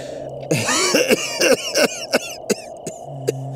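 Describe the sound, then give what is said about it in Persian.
Repeated harsh coughing from a sick person with chest pain who has been coughing up blood: many loud, rough bursts in irregular succession, some clustered and some spaced apart, with a low hum running underneath. “سرفه های بیش از حد باعث شده تا خون بالا بیارم”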